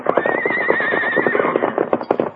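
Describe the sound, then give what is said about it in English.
A saddled army horse neighs in one long, loud whinny with a quavering high tone, rough breathy texture underneath and a few brief knocks toward the end. “It's an army horse”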